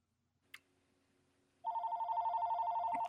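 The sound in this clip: Telephone ringing for an incoming call: after a single soft click and near silence, a loud, steady electronic ring with a fast warble begins and continues unbroken to the end.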